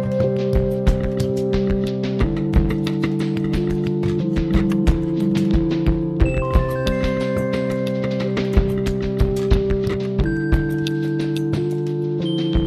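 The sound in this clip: Song by an Icelandic band: layered, sustained instrumental chords change every couple of seconds over a busy crackling, clicking rhythm. No singing or talk is evident.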